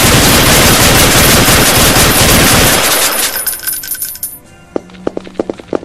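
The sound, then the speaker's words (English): Rapid gunfire from a video game bursts loudly and continuously for about three seconds, then thins and fades out, followed by a handful of sharp, separate clicks. “it sounds like he's shooting people”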